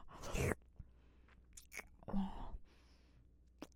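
Chewing on bread: faint, moist mouth bursts in a few separate clusters with quiet gaps between them, no talk.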